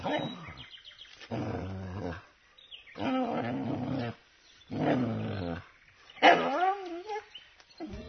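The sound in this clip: A dog barks and growls in five drawn-out, rough bursts of moderate loudness, separated by short silences, with the last burst the strongest.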